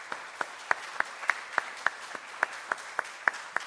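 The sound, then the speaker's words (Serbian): Applause greets a guest at an award ceremony, heard as fairly faint, evenly spaced claps, about a dozen sharp hits in a steady rhythm over a soft patter of clapping. “Maje Fabris Đurović, koju molim da pozdravite jednim aplauzom koja je ovde sa nama.”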